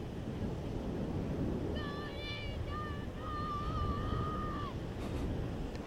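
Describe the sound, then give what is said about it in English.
Steady ocean surf on a beach: a dense, even wash of white-noise-like sound that holds level throughout. Midway, a thin, wavering tonal cry rises briefly over it. “And you should also hear the waves, which will sound very much probably like white noise. It's a very steady wave sound,”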